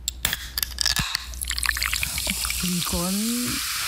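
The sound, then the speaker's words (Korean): A Coca-Cola can is opened: a few sharp clicks and crackles lead into a soft, bubbly fizzing hiss, and a voice begins speaking near the end. “뭘까요? 그 음료수 캔 따는 소리인데요.”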